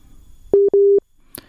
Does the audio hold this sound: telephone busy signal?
yes